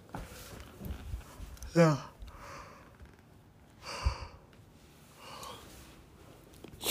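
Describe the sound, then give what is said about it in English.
A person yawning: a drawn-out, partly voiced yawn, then a few breathy sighs and exhales, all fairly quiet. “sorry, I'm yawning in your face or ear”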